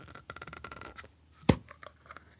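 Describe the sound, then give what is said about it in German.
Paper rustles and crinkles as a neatly wrapped package from a Russian supermarket is opened: a run of quick, faint scratchy tears, then one sharp snap, then a few quieter rustles. “Da mach ich's mal auf, oder? Ja, mach's mal auf, bitte. Es ist sehr schön eingepackt, muss man sagen.”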